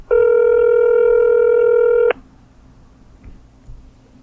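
A single telephone tone sounds while calling a cleaning-service business. It holds loud and steady for about two seconds, then cuts off abruptly to near silence. No ringing follows.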